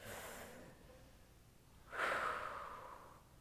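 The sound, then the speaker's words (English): An audience takes a collective deep breath together: a soft, breathy rush of many people inhaling swells suddenly about two seconds in, then slowly fades over a low, steady hiss. “So I think we should all take, before we read this scripture, a collective deep breath. I think we need another.”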